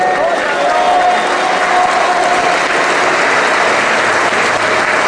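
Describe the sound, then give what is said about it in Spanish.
A church audience applauds, a dense, continuous wash of clapping mixed with crowd voices, loud and steady throughout. “¿Cuánto le damos aplauso a Cristo por eso?”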